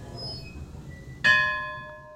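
A bell in an artist residence gives a single bright strike with several clear, sustained overtones that ring on and slowly fade. It is preceded by quiet background noise.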